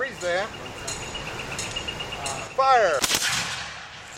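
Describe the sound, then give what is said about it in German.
A sharp musket shot during battle-reenactment weapons training for the American side, a single loud crack heard alongside people talking. “Wir schießen mit Musketen.”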